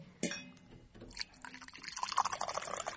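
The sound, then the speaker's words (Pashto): Water pours from a jug into a glass, giving a faint, soft trickling splash that becomes fuller and busier in the second half. “او یو ګیلاس اوبه خو راکه خورې. ښه، ښې سړې او تازه اوبه دي. هغه د جک مې هم تیار راوړی دی.”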